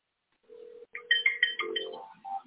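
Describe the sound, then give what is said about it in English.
An online call is dialled with electronic tones: a steady low beep, then a quick run of higher pinging notes and a short melodic phrase. The tones are faint and alone. “I'm just going to dial him so, you know, he has the opportunity to converse with us. And there we go.”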